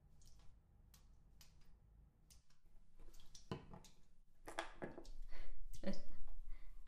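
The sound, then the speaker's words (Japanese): Water splashing and dripping as something is washed: irregular wet squishes, drips and taps, faint at first and growing louder over the last two seconds. “ほら、洗え。”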